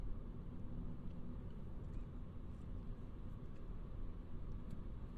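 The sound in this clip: A worn, characterful car drives along on the way to the pier, giving a steady, low engine and road rumble that stays even and continuous, with no talk over it.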